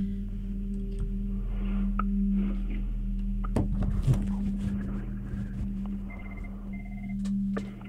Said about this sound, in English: We are getting a call, so hang on.